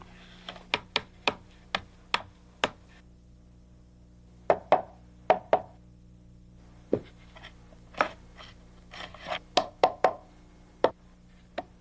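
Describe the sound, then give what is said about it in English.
Hammer blows drive nails into hand-split wooden boards smoothed with a drawknife. Sharp, crisp knocks come in irregular bursts of several strikes separated by short pauses, heard alone with no talking. “I smoothed the split sides with the draw knife. The result was a real nice board, so I continued to fashion others. Put them in place and nailed them in.”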